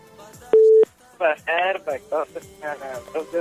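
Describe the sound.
A call placed from a studio telephone gives a single short, steady tone, and then a voice starts talking over the line.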